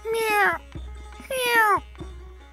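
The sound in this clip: A human voice imitates a cat meowing, with two drawn-out, wavering meows separated by a short pause, followed by a softer, shorter vocal sound.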